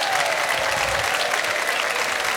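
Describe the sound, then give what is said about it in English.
Loud, dense audience applause at a live variety show, welcoming a rock-and-roll tribute performer to the stage, with many hands clapping steadily throughout. “Put your hands together and welcome to the stage, my friend and yours, Buddy Holly.”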